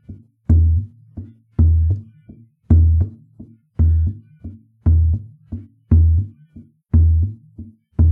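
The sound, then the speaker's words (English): A pirulito drum plays the shashadu rhythm: eight loud, deep accented strokes recur in a steady cycle, each followed by lighter, quicker strokes that fill the uneven gaps before the next accent. “The most recognizable element of the shashadu rhythm happens in what you play with the pirulito, right? Yeah. The rhythm sounds like this.”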